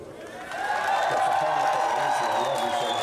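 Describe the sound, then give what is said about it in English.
A crowd cheers in the streets of Lebanon, celebrating the announcement of the government leader's departure. The steady roar of voices swells early and then holds, with high whoops and whistles carrying above it. “But on the streets, there was celebration as people cheered the announcement of his departure.”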